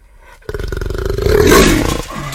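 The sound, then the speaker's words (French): A jaguar roar, one long, loud, rasping roar that bursts in abruptly after a moment of quiet, holds its strength, then eases off toward the end. “Le jaguar. Bonne réponse.”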